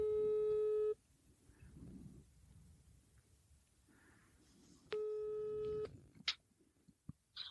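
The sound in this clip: Ringback tone of an outgoing telephone call: two one-second electronic tones, about four seconds apart, each followed by quiet line noise, then a few brief clicks near the end.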